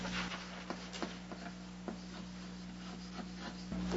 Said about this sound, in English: Let me write down the three basic defenses.